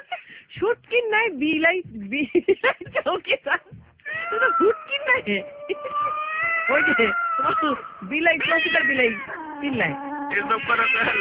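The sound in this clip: A cat meowing, with many drawn-out, tonal meows that rise and fall in pitch, some long and wavering, mixed with voices at times.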